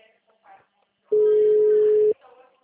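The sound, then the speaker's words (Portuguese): One steady, mid-pitched telephone tone lasting about a second while a caller phones clients, with faint talk before and after. “Empresta pra mim. Tenta ligar pros clientes aqui.”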